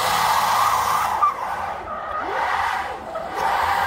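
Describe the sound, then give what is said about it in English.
Tires squeal hard under a car driven by a reconfigured Tesla electric drive unit with different gearing. The screech is loud and sustained, briefly dipping and wavering before swelling back up. “Their business is taking Tesla motors, reconfiguring them with a different gearing, and then destroying some perfectly good tires.”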